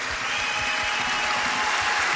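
Audience applause for opera singers called back onto a stage: dense, steady clapping that holds at an even loudness throughout, with no voices standing out.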